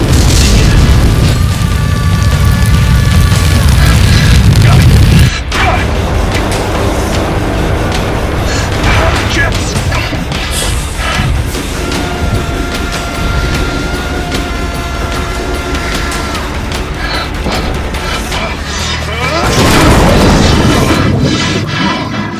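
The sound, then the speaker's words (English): A plasma thrower weapon fires in a video game as a loud, sustained roaring blast of noise. It breaks off sharply about a quarter of the way through, then continues as a dense rumble and swells again near the end. “Warning, plasma thrower active. Use caution when deploying this weapon.”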